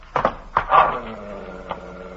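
A dog barks at an intruder who has hopped a house fence: a few short, rough bursts close together early on, then one fainter bark after a pause, with no talk over them.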